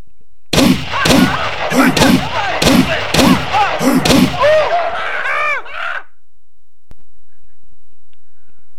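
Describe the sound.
A rapid series of loud revolver gunshots, evenly spaced, each with a ringing tail, followed by silence.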